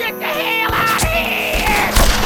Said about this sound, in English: The gunfire from the shadows seemed to be tapering off.